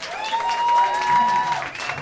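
Audience applause at a summer jazz festival club night, a steady wash of clapping and crowd noise lasting about two seconds, with a thin sustained tone above it and no break in the clapping.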